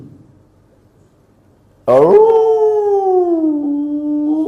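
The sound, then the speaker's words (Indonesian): A dog howls in one long, loud, sustained wail that starts abruptly and slowly eases downward in pitch, preceded by a couple of seconds of faint low background hum. “Bapak Ibu kalau mendengarkan lolongan anjing baca apa?”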